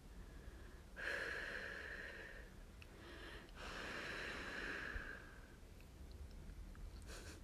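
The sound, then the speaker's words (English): Someone softly blows air in two long, breathy gusts, each about a second or more, with a faint whistling tone inside them, then quieter breathing. “Can I soothe it? Let me blow on it.”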